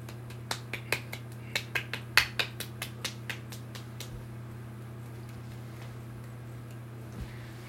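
Sharp one-handed clapping: many quick, crisp slaps in a steady rhythm for about four seconds, then a pause and one more slap, over a steady low hum.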